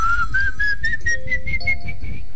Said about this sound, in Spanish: Esa la trajimos nosotros de Barina, ese es el silbón. El silbón, ese vino de Barina